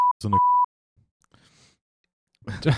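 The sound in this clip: A steady, high-pitched censor bleep masks a spoken word. It sounds as a brief burst and then a longer tone cutting through the speech, and voices talk before and after it.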